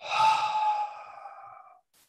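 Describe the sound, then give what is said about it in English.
A single soft exhale during a guided breathing meditation, a long, breathy outward sigh with a faint voiced tone that fades over nearly two seconds, heard alone. “Nice big inhale here together. Nice soft exhale.”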